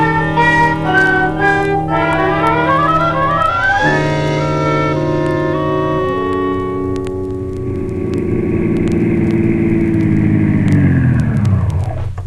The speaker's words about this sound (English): Come on, get into this jalopy and let's get started.